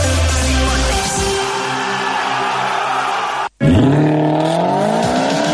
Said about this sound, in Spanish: ¡Vaya cochazo! ¿Es nuevo?